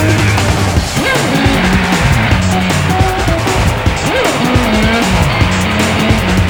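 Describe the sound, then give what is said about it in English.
Tires squeal on a hot rod as its engine roars loudly and steadily, with several sharp screeches and skids rising and falling over continuous motor noise, and no talk. “What a set of wheels. Hot shots in a hot rod.”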